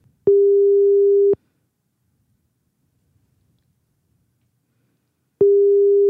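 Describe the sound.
Telephone ringback tone while placing a call: two steady, low, single-pitch beeps about a second long, separated by a long silence, with no voices.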